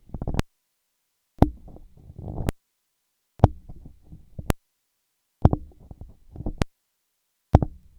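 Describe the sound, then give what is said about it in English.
The on-off switch of a Samson Q2U microphone is toggled, giving eight sharp clicks. Each switch-on lets in a low murmur of background noise, and the next click cuts it to silence. “I'll go ahead and switch it on and off so you're able to hear what kind of noise that generates.”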